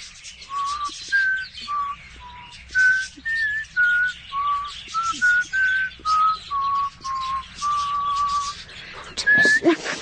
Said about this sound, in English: I'm no whistler, such as you pretended. Nonsense. Try it. Go on, let me hear you.